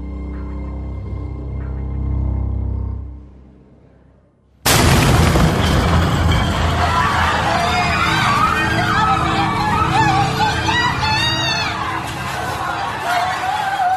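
A bomb explodes in a church just after Holy Communion. A low droning sound fades to near silence, then a sudden, loud blast bursts in and gives way to sustained roaring noise with wavering, siren-like tones.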